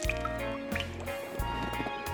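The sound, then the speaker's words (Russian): Water dripping from ice melting in the sun: a few bright, short plinks over a steady tonal musical background. “Лед оказался под лучами солнца и стал медленно-медленно таять.”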